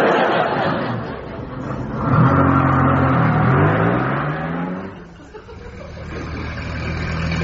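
A car engine being coaxed along, running and revving as its pitch climbs through the middle, then dips briefly before settling into a steady, droning run.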